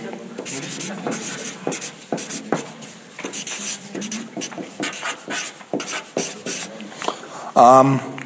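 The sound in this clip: A name is written on a board, with many quick scratchy marker strokes in an uneven rhythm and a short squeak near the end.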